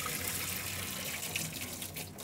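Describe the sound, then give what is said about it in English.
Cooked cauliflower being drained through a colander, a faint, steady rush of pouring, splashing water that continues without a break and with no talk. “So the cauliflower is now done. So I'll just drain that through a colander.”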